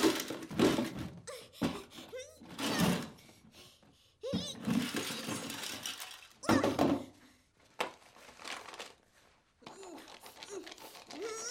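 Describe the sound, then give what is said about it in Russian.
A box of toys tipped out onto the floor gives a series of clattering knocks and thuds in irregular bursts, some loud and some fainter, with brief pauses between them. “Кунтян, рассердившись, берет коробку с игрушками и высыпает их на пол.”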